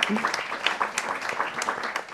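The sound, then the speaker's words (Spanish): Audience applause for the think tank sponsoring a public policy debate: a dense, steady patter of many clapping hands, moderately loud and even throughout, with a brief voice near the start. “Entonces, un aplauso especial a Etos por patrocinar.”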